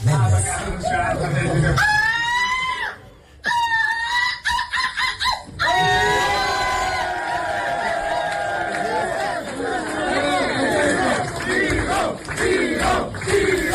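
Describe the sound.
A large audience chants the name of Vigo at a competition crowning a runner-up, loud rhythmic chanting and cheering that dips briefly, then swells into sustained crowd roar with overlapping voices.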